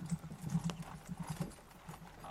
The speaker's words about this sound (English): he takes off down the road at a full gallop